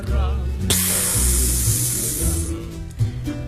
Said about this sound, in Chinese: 旁边的胶囊舱传出阀门活动的抽气声